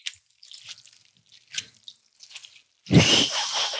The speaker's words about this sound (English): Just a little extra water. Kind of sounds like this.